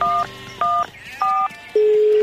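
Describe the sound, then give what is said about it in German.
Telephone keypad dialing an emergency number: three short, evenly spaced dual-tone beeps, followed by a longer, lower steady tone, all clear and loud with no talk. “Sie wählt schnell die Notrufnummer 110.”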